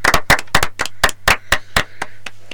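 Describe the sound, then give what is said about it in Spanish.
Hands clap in a steady, evenly spaced rhythm of sharp claps, with the last few claps softening. “Un aplauso.”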